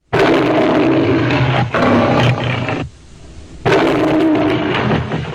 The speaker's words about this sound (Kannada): ಸಿಂಹದ ಗರ್ಜನೆಯಲ್ಲಿ ನಾವು ಇದುವರೆಗೂ ಗಮನಿಸದೇ ಇದ್ದ ಒಂದು ಅಂಶವೂ ಇದೆಯಂತೆ.